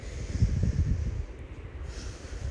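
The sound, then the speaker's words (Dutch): Soft nose breathing during a guided breathing exercise: a faint, low, airy rushing that swells and eases as air moves in and out, with no talk. “En ga dan terug naar je normale neusademhaling. Voor 2 in- en uitademhalingen.”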